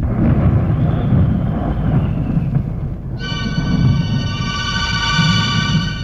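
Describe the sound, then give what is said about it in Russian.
Deep rolling thunder rumbles continuously as a thunderstorm begins. A steady high-pitched tonal sound joins partway through and holds to the end. “Начинается гроза.”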